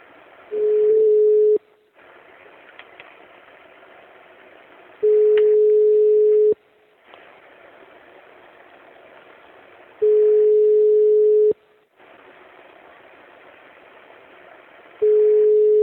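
A telephone ringback tone sounds while a call is being placed: a steady, low, unbroken tone comes in about four long bursts at even intervals, the last one cut off. Soft hiss and faint background noise fill the gaps between them.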